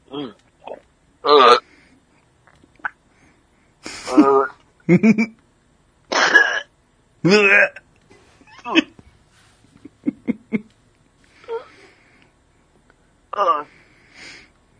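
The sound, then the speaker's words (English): A coughing fit after something went down the wrong pipe: many harsh, wheezing coughs and gasps in irregular bursts separated by short pauses. “What went down the wrong pipe?”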